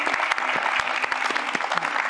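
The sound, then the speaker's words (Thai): Audience applause welcoming a guest: dense, steady clapping from many hands, holding at an even level for the whole stretch with no pause. “ขอเสียงปรบมือต้อนรับคุณไส้หลีครับ”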